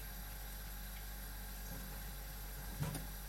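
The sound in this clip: Water drains from a pot of cooked pasta in a steady, even rush over a low hum, with a brief knock near the end.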